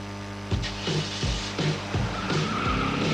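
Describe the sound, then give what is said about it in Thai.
A car engine left running, giving a steady low hum broken by a series of regular, loud bursts that recur every fraction of a second throughout. “เฮ้ยจะรีบไปไหนสตาร์ทรถทิ้งไว้ก่อนเดี๋ยวขึ้นไปเอาของบนออฟฟิศแป๊บนึง หยุดเลยสตาร์ทรถทิ้งไว้เปลืองน้ำมันนะ”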